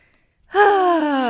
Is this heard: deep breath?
yes